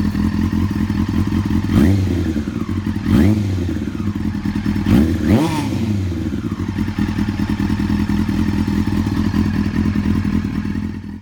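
Motorcycle engine fitted with its original MIG high-mount exhaust, before modification, idling steadily with a low throb and a few short throttle blips that rise and fall in pitch.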